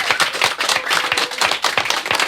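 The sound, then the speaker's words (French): Lively clapping from a studio audience at the end of a children's music show, a loud run of quick, closely spaced claps with no voices. “Vous pouvez vous applaudir, même crier,”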